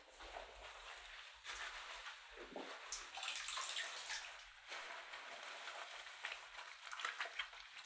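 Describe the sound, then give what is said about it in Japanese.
Bath foam is scooped up with a towel and lathered again, giving faint, continuous wet swishing and soft splashy rustles. No voices are heard. “お風呂の泡をタオルですくって、もう一度泡立てて、”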